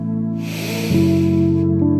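A deep breath drawn in during a guided prayer and breathing exercise: a soft, airy inhale lasting about a second and a half, heard over steady sustained musical tones.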